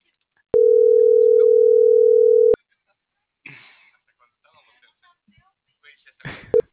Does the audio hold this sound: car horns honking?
no